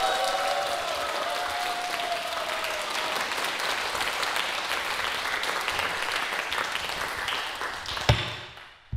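Audience applause at a Korean pansori performance, given for the accompanying drummer: steady, dense clapping that fades near the end, broken by a single sharp tap.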